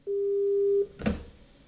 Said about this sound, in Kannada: ಕರೆ ಕಟ್ಟಾಯ್ತು ಅಂತ ಅನ್ಸುತ್ತೆ.